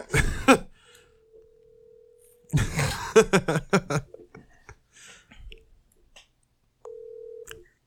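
Outgoing telephone call ringing, with a steady low ringback tone heard twice, separated by short clicks and bursts of handling noise.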